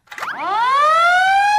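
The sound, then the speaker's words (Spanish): A fire truck siren sounds a single loud wail, sweeping quickly upward from low to high pitch and then holding a steady, piercing tone to the end. “Es el de un camión de bomberos.”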